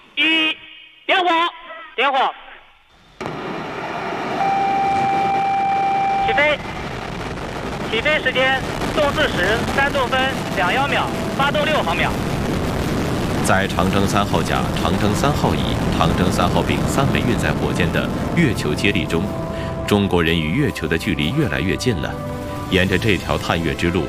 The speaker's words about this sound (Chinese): 点火，点火。 起飞